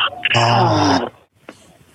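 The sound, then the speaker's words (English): A deep, voiced breath out during a guided breathing exercise, like a drawn-out groaning sigh that drifts downward in pitch. It is loud and lasts about a second, followed by a brief faint sound. “And inhale. And exhale.”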